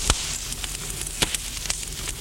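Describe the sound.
Wood fire crackling in a house fireplace: many sharp pops and snaps scattered irregularly over a steady, hissing background.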